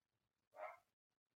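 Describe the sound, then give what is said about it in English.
A single short bark from a dog in the background, faint and brief in otherwise near silence. “I don't know if you guys can hear my dog in the background. I'm so sorry about that.”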